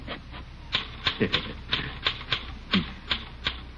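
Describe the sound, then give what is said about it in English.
A typewriter clacks as a letter is typed for a man working alone in an office: a run of many sharp, fairly faint key strikes in an uneven rhythm, a few per second. “You poor man, you, working all alone. Here, let me type that letter for you.”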